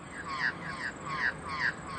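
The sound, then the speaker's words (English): Magpies squawking during an aerial territorial dispute over other magpies: harsh, rasping chattering calls repeat in a few louder surges over a steady hiss. “Magpies have to defend their territory not just against the birds of prey and other intruders, but in fact against other magpies. This is one of the recordings taken in an aerial dispute where the magpies”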